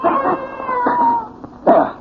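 A cat yowls while attacking, giving drawn-out, wavering, harmonic cries in a few loud bursts, ending in a sharp, screeching squall.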